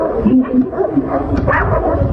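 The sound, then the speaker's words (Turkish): A pack of more than ten stray street dogs fights in an evening street in Ankara's Altındağ district, a dense, continuous tangle of growls, barks and yelps that stays loud throughout. “O sessizliği sokak köpeklerinin kavgası bozdu. Birbirine giren köpek sürüsü mahalleliyi ayağa kaldırdı.”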